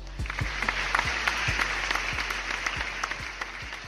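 Dense, steady applause welcomes a guest, many hands clapping together at an even level throughout, with no talk over it.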